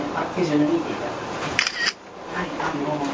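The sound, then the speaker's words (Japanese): A single brief camera shutter click as a photo is taken, sharp and short, heard amid ongoing talk. “ちょっと写真を撮ってみたいと思います。”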